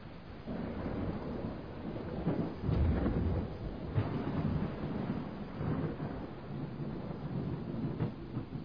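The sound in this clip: A thunderstorm rumbles steadily throughout, a loud, continuous low roar with a few heavier surges of thunder rising out of it and no voices.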